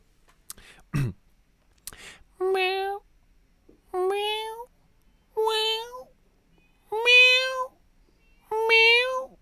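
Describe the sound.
A person imitates a cat's meow with five drawn-out, evenly spaced meows, each loud and tonal. A few short clicks and a throaty sound come first.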